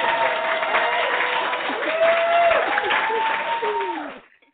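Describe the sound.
Audience applause welcoming a romantic suspense writer and poet onto an evening show: sustained, even clapping with cheering voices and whoops woven through, holding steady for several seconds before tapering off and fading out at the end.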